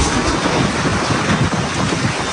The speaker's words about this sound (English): As high winds and rains swirled around the hotel and caused intermittent power outages.